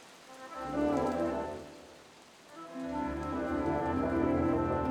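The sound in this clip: Rain falls in a sudden icy wind over blossoming apple trees on a spring day, a steady, soft rushing hiss that swells twice, with a faint tonal hum running beneath it.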